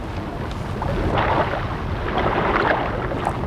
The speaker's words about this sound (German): Es plätschert der Bach. Es rauschen Strom und Wasserfall.